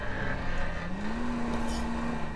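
A car engine drones loudly and steadily as the car drives and accelerates, its tone climbing partway through and then holding at the higher pitch.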